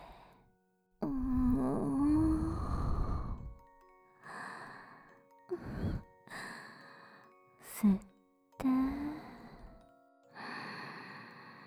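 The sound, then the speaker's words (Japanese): Slow breathing out during a guided relaxation exercise for a child: a long, voiced, sighing exhale, followed by several shorter breathy vocal sounds separated by brief pauses. “吸って、ゆっくり息を吐いて、”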